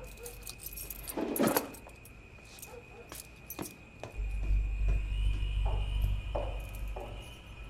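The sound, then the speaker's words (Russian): A bunch of keys jangles in a few bright, metallic clinking bursts over quiet background noise, with a low rumble joining partway through. “Подходит к столу Юры, там находит связку ключей и пистолет.”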